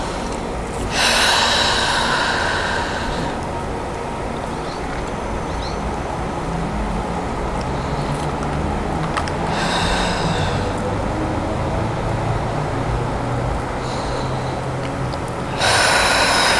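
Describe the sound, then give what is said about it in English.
Deep breathing in and out during a yoga session: a few long, airy, rushing breaths spaced several seconds apart over a steady low background noise. “Inhale, send the left hand up. Exhale, release it to the right toes.”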